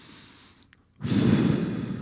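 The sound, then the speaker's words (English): A deep inhale through the nose during a guided breathing exercise: after a brief quiet lull, a loud, steady rush of air begins midway and holds evenly to the end. “Second, we're going to make a bubble the size of our bodies. Here we go. Breathe in with me.”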